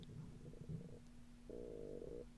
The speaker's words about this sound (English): That's my stomach growling.